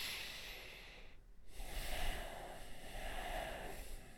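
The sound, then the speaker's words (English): A person takes a quiet, airy breath, heard as a soft hiss after a brief pause and lasting a few seconds before fading slightly. “When I said that, did you have to take a breath too?”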